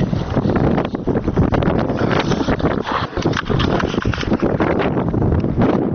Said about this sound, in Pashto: سیمه ټوله باد او دوړو پر سر اخیستې ده.